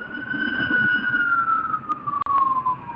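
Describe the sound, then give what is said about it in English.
A fire truck siren sounds as the truck rolls by: one loud, sustained wail that slides slowly downward in pitch, with low engine rumble underneath. “And that's a fire truck rolled by. Sorry about that. That kind of put a flashback on me. Yeah, the fire truck rolled by.”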